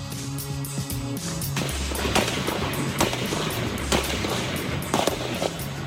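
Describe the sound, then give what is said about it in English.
Gunshots ring out at a baseball field in Alexandria, Virginia, during a violent attack. Many sharp, irregular cracks cut through a dense, noisy background after a brief burst of music. “The shots as they ring out in Alexandria, Virginia today, where a baseball diamond became the site of a violent attack against specifically Republican congressional officials.”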